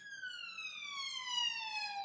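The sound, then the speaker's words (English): An emergency vehicle siren near a police station and a hospital wails as one steady, tonal note with bright overtones, its pitch sliding slowly and evenly downward throughout at a moderate, fairly soft level, with no talking. “shut up, stupid sirens. I apologise, we're right next to the police station and the hospital.”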